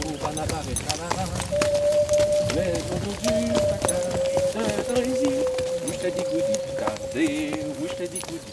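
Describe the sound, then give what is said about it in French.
Horse hooves clip-clop on an uphill ride with the horses of the Vercors, between Engins and Léoncelle. Many steady hoof beats run throughout under talking voices. “vous emmène d'Engin à Léoncelle pour un voyage chargé d'histoire avec les chevaux du Vercors. Écoutez et laissez-vous porter. Allez, ça grimpe un petit peu là.”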